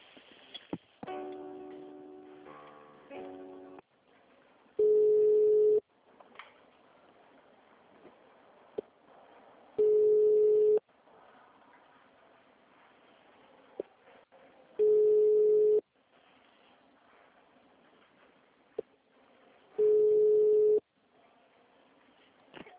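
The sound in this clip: Ringback tone of an outgoing telephone call, four steady beeps of about one second each, spaced roughly five seconds apart, with faint background noise between them.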